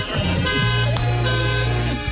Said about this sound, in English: Honk the horn.